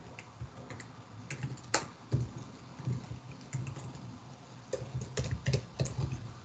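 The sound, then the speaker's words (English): Typing on a computer keyboard while building an app: many quick, irregular key clicks in uneven bursts, fairly faint, with a few sharper clacks and no talk. “I can just type this, I think.”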